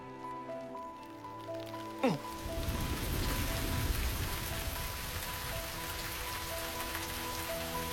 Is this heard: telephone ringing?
no